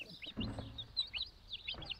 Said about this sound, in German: Die bekommt als erstes Küken. Damit die Küken nicht ausreißen, hatte Christine das Nest mit Gittern abgedichtet und kann jetzt nur zuhören.